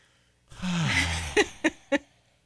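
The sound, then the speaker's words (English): A person performs a deep breath as a vocal sound effect. A long, voiced exhale falls in pitch, followed by three short, sharp bursts. “I want you to be the sound effect for this. Sure. Take a deep breath.”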